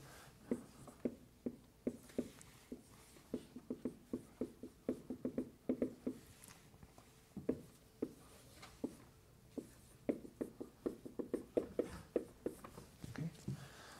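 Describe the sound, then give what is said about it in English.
Marker or chalk writing on a lecture board: many quick, faint taps and short strokes in irregular bursts, with brief pauses between groups of marks. “And I'll take this and write it another way.”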